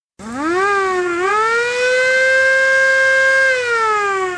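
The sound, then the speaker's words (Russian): A siren wailing during a naval operation against pirate groups on the water. One loud, steady tone rises in pitch, dips briefly, climbs again, holds level for a couple of seconds, then sags slightly near the end. “Опять взревела чертова сирена.”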